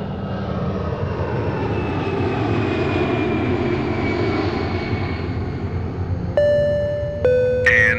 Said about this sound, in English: Attention all passengers, please prepare for takeoff.